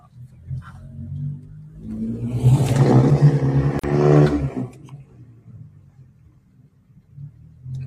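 A car that has been doing donuts drives away, its engine roar rising to a loud revving peak and then fading out.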